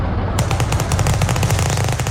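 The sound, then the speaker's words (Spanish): Sustained gunfire from gangsters shooting at each other: a loud, dense rattle of rapid shots that runs unbroken through the whole stretch. “¿Qué es eso? Pues se están disparando, pues mira, los están matando.”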